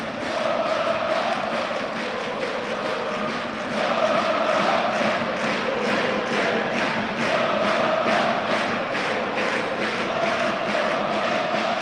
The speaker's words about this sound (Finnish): kuunnellaanko oikein vähän aikaa. Annetaan yleisölle hetki.